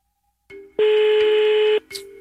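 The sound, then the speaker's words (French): Telephone dialing tones for a live morning radio call: a brief beep, then a loud, steady electronic tone lasting about a second, followed by another short tone. “On vous appelle en direct le matin.”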